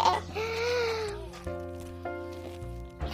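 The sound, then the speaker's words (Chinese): A little brother cries in one drawn-out, wavering wail over the first second, and steadier humming tones follow for the rest of the moment. “刚刚弟弟哭了啦，爸爸去拯救他了。”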